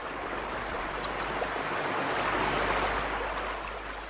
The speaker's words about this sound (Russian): Загремел гром, и хлынул дождик. Не очень сильный, теплый, но все-таки мокрый.